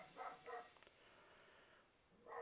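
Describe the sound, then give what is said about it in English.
Two dogs bark out back behind a house: a few short, faint yelps come in separate bursts, with a quiet pause between the first pair and the last bark. “Your dogs are barking out back. Yeah, both of them. They must be like, it seems like they're right outside of our window.”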